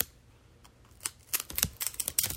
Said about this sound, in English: with my scissors so I can make a little cake